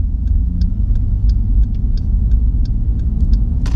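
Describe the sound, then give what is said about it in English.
A car being driven recklessly outside: loud, steady low engine and road rumble, with a light, regular ticking running over it the whole time, and no voices. “I hear more of somebody driving really stupid out here.”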